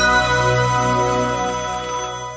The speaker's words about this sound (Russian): Звонок эксперту на радиомарафон.